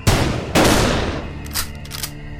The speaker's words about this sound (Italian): Sparo. Sparo anche per questo.